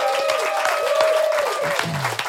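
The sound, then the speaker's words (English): Live audience applause breaks out, a dense, steady wash of clapping that holds at an even level for the whole stretch. “shout out to our live audience one more time. Give it up for Wax.”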